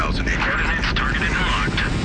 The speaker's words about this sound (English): We have main engine start. 4, 3, 2, 1, 0. X. Thrusters at full.